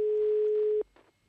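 A telephone ringing tone sounds on a call placed from the United Nations, a single steady mid-pitched tone lasting under a second before it cuts off into faint background noise.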